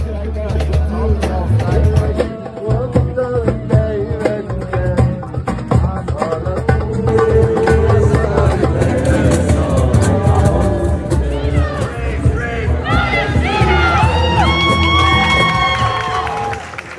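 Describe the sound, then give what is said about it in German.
Crowd of students at a protest during the occupation of a university campus: loud, continuous mass of voices with shouts and cheers, chanting becoming more prominent near the end. “Sie haben euch auch Schnitte von den Protesten, von den Besetzungen zugeschickt. Vor gut einem Jahr hat das dann so getönt auf dem Unigelände.”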